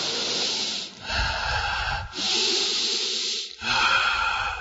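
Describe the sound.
A few long, steady breaths with a rough, airy hiss, each separated by a brief pause, heard alone without any talk.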